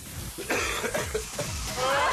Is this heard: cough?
yes